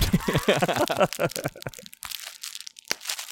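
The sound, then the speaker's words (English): A fortune cookie is cracked open with crisp crunching and crackling that follows a stretch of talking. “Let's crack open a cookie.”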